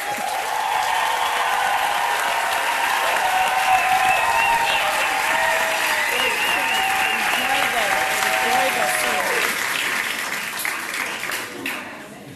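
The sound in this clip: An audience gives a Johannesburg welcome to a speaker with dense, continuous clapping that holds steady for about ten seconds, then thins and fades toward the end.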